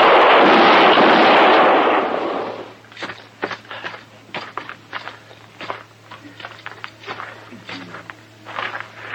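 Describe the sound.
Gunfire from a showdown in a radio western drama: a loud, dense blast fills the first two seconds and then dies away, followed by many light, scattered clicks and taps at a much lower level.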